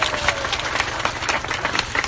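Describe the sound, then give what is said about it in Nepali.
Audience applause for two departing guests at a community gathering: dense, lively clapping that fills the whole moment in a steady, crackling mass without a break. “उहाँहरू दुवैजनाको जानको लागि ठुलो ताली हामीले दिनै पर्ने हुन्छ”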